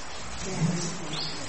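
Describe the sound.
A bird calls in a few faint, short chirps that rise briefly above steady background noise.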